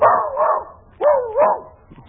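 A small dog barks twice, each bark a drawn-out, whining yelp that wavers in pitch, with a short pause between the two.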